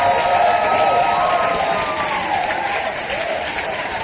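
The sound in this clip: A church audience in Maxixe claps for the Lord during a service, a steady wash of many hands clapping at once. Cheering and raised voices blend into the applause throughout.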